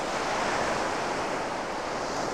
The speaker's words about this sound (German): Das Meer beruhigt mich.